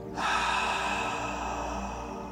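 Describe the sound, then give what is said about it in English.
A slow exhaling breath during a beginners' breathing session for anxiety: a steady, airy rush that begins abruptly and holds evenly for about two seconds, with no talking. “And exhale”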